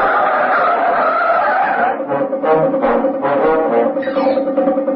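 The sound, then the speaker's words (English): Tyres squeal as a speeding taxi swerves violently during a car chase with a police car in pursuit. A loud, continuous, wavering screech with shifting tones runs for the full five seconds, with no voices. “The speeding taxi careers along South Union Street and swerves violently into Warmer Road. The police vehicle follows in hot pursuit.”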